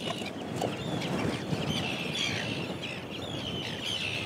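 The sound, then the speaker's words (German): A chick cheeps while it is being weighed. Many short, high chirps come in quick succession over a dense, busy background noise, with no voices. “Und dann wird das Küken gewogen.”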